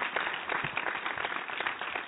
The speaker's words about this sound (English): Like the applause.